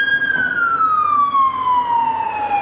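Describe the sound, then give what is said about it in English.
An ambulance siren passes on a street at night, its loud steady tone sliding gradually downward in pitch as it goes by, over a constant low rumble of traffic. “As an ambulance cruises by,”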